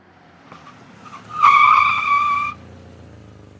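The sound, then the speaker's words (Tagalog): Tires or brakes squeal as a taxi stops in front of a small roadside restaurant: a loud, high, steady squeal lasting about a second, with a faint low rumble before and after. “Huminto ang taxi sa tapat ng isang may kaliitang resto.”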